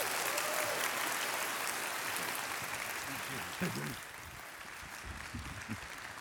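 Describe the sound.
Audience applause welcoming a guest and his wife at a church gathering: sustained, dense clapping that holds steady, then thins as a voice begins speaking over it.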